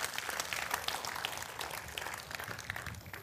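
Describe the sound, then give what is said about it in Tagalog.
A church audience claps during a sermon, a fairly faint, steady patter of many hands applauding continuously, with a few sharper claps standing out. “Palakpakan po natin si Lord, come on.”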